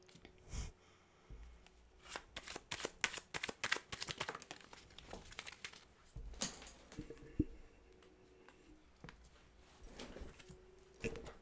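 Tarot cards are shuffled and handled in a soft, irregular run of many quick flicks, taps and rustles, with brief pauses between bursts.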